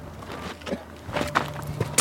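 Footsteps climbing over a mound of earth that barricades a metal gate between cement walls: a few irregular scuffing steps and dull thuds on dirt, growing louder toward the end.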